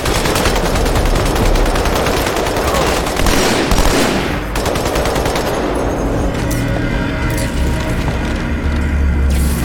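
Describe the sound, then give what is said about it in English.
Turret gunfire from a video game rattles out in dense, rapid bursts with mechanical clanks, loud and continuous throughout, with the texture shifting partway through. “Speaking of turrets... Oh, hey, look. Here you are.”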